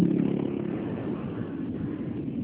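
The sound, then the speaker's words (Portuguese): Street traffic comes through a phone line as a muffled, steady rumble of passing engines, dense and continuous with no distinct voices. “Eu não entendi bem, que eu tô na rua.”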